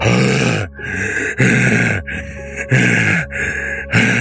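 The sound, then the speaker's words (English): A voice imitates a man's groaning breath as he tries and fails to scream, making loud, strained, rasping groans in many repeated bursts broken by short gaps. “his face wide, his groaning breath, and it sounds like he's trying to scream but can't make the sound.”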